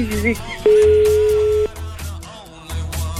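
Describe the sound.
A steady electronic telephone tone sounds once for about a second while a number is dialled and turns out to be busy, with voices heard around it.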